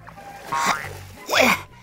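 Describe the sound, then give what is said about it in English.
Two short frog croaks, each a rough, warbling call with a sweeping pitch, separated by a brief pause. “The frog hops in the water.”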